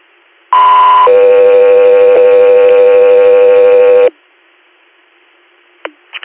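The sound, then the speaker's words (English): Radio dispatch alert tones for an air medical inter-hospital transport. A loud steady higher tone switches to a longer, lower tone that holds for about three seconds. Near silence follows, broken by a few faint clicks. “Guthrie Air, stand by for tones.”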